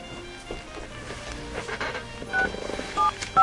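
Telephone keypad tones sound as a number is redialed after failed calls to a home landline: a few short, clear beeps near the end over busy background noise.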